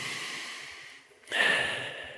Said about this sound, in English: But it's much better to collect your thoughts, take a deep breath. Everybody take a deep breath.